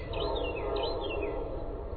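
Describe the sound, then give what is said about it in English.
Birds calling along a Connecticut shore salt marsh: a few high, thin chirps and twittering notes rise above a steady broad wash of background noise. “From the train, you can see some of the marsh birds. Yellowlegs, sandpipers, snowy egrets.”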